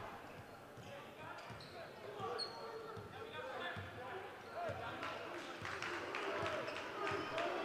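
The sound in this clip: A basketball dribbled repeatedly by a player during a game, with a run of sharp, rhythmic bounces and squeaky footsteps beneath continuous play-by-play commentary.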